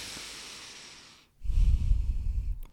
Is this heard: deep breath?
yes

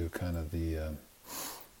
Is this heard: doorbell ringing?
no

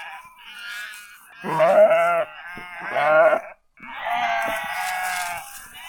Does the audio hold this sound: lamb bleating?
yes

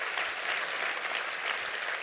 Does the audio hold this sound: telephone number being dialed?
no

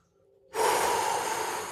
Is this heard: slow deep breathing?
yes

